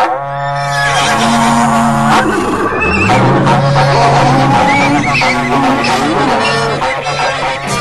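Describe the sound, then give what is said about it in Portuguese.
A berrante cattle horn is blown in loud, sustained low blasts whose pitch steps between a few held notes, giving a brassy, lowing tone. “Reúne a tropa aí, seu moço, repico berrante”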